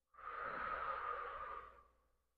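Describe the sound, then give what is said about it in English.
A single long, soft, airy breath from a guided breathing exercise in through the nose and out through the mouth. It starts abruptly, holds steady, then tapers away quietly, heard alone. “Breathe in through the nose. And exhale out of the mouth.”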